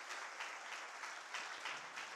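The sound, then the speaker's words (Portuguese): Church audience applauding, a dense and steady wash of many hands clapping together that holds fairly even and soft from start to finish. “Porque a igreja, pode dar uma salva de palmas ao Senhor.”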